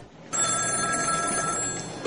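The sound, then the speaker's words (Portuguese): A telephone rings at a doctor's home, one bright, continuous electronic bell tone that starts after a brief quiet moment and holds loud and steady to the end, with no talk over it. “O médico está em casa quando o seu telefone toca.”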